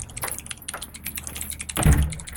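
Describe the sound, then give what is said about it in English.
Keys clicking on a computer keyboard as a student types code: many quick, irregular light clicks at moderate loudness, with a heavier thump near the end and no voices. “this clicking you hear are keys on a keyboard”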